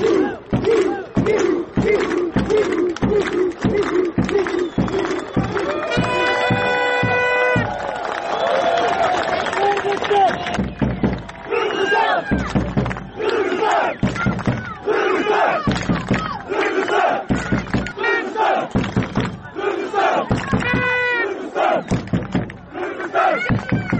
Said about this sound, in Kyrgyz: Оюн бүткөн соң көрүүчүлөр жеңүүчүлөрдү салттуу кол чаалуулар менен узатышты.